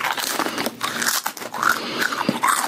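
Crispy papad, thin lentil-flour wafers, crunch loudly as they are bitten and broken, giving several sharp, crackly, brittle bursts and crumbling snaps in an irregular rhythm, with no talk.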